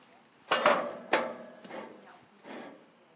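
Hard metallic clunks from an outdoor grill lid being closed over walnut bread dough baking inside. A few separate impacts ring out, with quieter rattles between them.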